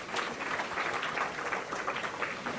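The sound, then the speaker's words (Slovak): Audience applause fills the whole stretch, a dense, steady clapping from many hands at an even loudness, with no voices standing out above it. “Dobre, ďakujeme, zatlieskajte im.”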